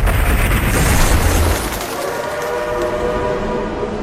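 A train arriving at a station gives a loud, steady rumble of wheels and rolling stock. It is heavier for the first second and a half, then settles into a quieter, even hum with a faint ringing tone.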